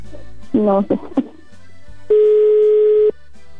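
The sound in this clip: Telephone ringback on an outgoing call that goes unanswered to voicemail. Brief voice-like sounds come first, then one steady, level, loud tone lasting about a second.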